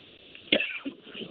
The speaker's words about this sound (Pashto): تاسو که ټوخی کیږي